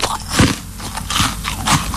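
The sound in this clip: Crisp biting and crunching of a honeycomb-centred chocolate bar, with a few loud crunchy bites over continuous chewing noise.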